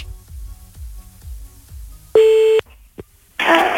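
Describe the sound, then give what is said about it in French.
A steady electronic telephone tone sounds for about half a second as a call back to Corsica is placed. It follows soft rhythmic low thumps and is followed by a brief blip and a burst of hiss. “La photo, on rappelle le monsieur, on rappelle en Corse, c'est parti.”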